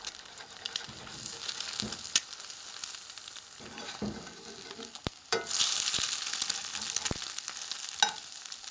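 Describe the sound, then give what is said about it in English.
Eggs frying in a pan, whites set and browning underneath, give a steady, soft sizzle with a few sharp crackles and pops rising above it. “the white is no longer clear and it's turned white. And if you lift up a little corner of the egg, you can see that there's a little brown at the bottom there.”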